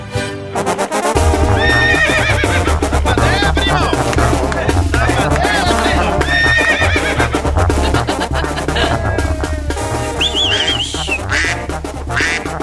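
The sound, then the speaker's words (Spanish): A Colombian mare neighs, with a few shrill, wavering whinnies and hoof clip-clops over loud rhythmic music that continues throughout. “Miren nomás qué buena yegua acaba de llegar. Es colombiana, primo.”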